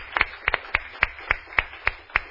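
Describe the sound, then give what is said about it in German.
Applause in a church service takes the form of rhythmic clapping, many sharp claps in a steady, even beat. It is fairly soft, with a quick double clap early on and no voices over it. “Lass uns einfach Applaus geben.”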